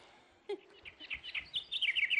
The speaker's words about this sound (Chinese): 是鸟叫。